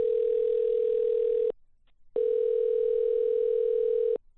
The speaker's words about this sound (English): I dialed the number.